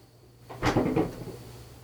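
The door of a broken fridge that is not keeping cold opens and shuts, making a short cluster of dull clunks and rattles after a brief quiet start, then settling back to a low hum.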